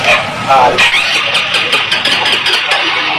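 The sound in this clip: A motorcycle's electric starter cranks on an engine that died suddenly and won't start, a loud whirring broken into rapid, repeated pulses, with a voice heard briefly.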